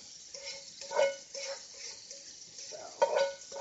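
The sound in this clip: Tap water runs while pasta and garlic drain in a colander, a steady, soft rushing hiss with slight swells and a few faint clinks.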